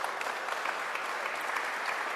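An audience at a business school event applauds with dense, even clapping. It is fairly soft and holds at a steady level for the whole stretch.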